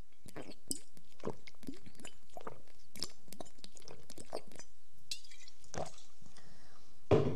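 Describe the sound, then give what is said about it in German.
Someone drinking a beverage: faint wet mouth clicks, swallows and a light clink come at irregular moments, ending with a brief, louder knock. “Aber ich will jetzt was trinken, Mensch.”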